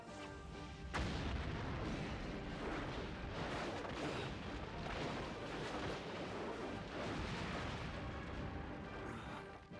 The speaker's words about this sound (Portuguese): É legal que foi o prédio dele que explodiu que, que deixou o Homem-Aranha escapar, não foi isso?